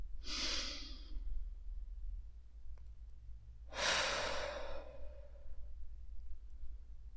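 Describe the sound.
Deep inhaling breaths during a guided meditation: two long, airy, hissing breaths separated by a quiet pause, the second louder and longer, with no talk over them.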